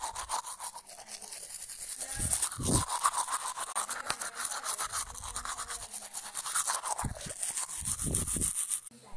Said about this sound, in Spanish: Al levantarme me cepillo.